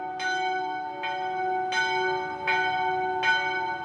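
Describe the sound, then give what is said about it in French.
A church bell rings five evenly spaced, bright strikes, each with a sharp attack and a long humming resonance that carries between strokes. “de Gonzague fait ouvrir les portes, fait sonner la cloche en disant « Ouvrez les portes, ouvrez les portes !»”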